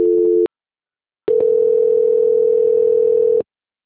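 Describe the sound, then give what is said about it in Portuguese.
Telephone line tones during a call transfer: a short steady electronic beep, a pause of silence, then a longer loud unbroken tone at the same pitch, with no voices. “peço que aguarde em linha que vou transferir o contato para o controle de qualidade que dará continuidade à sua contratação. Ok. Transfer.”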